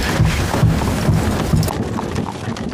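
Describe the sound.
Horse hooves clip-clop as a rider urges the animal on, a steady rhythm of hoof beats against a noisy background.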